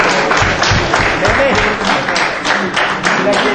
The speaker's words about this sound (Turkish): Mehmet'i bir daha alkışlayalım arkadaşlar. Alkışlayalım.